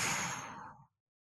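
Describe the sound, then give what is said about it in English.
A deep breath fully exhaled, one soft, airy outbreath that starts strong and steadily thins out to silence within a second. “Feel that fullness in your diaphragm, and then fully exhale.”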